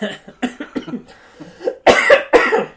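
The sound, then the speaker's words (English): Coughing and choking after a fit of hard laughter: a few short sputtering bursts, then two loud, harsh, rasping coughs close together at the end. “Excuse me. I'm sorry. I laughed so hard I choked.”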